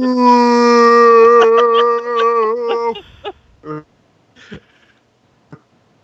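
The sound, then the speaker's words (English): A voice imitates the whale-like noise of a malfunctioning machine that was running while someone slept: a sustained, wavering howl held for about three seconds, followed by a few short clicks and vocal fragments. “it started making this insane noise, like a whale. It was like,”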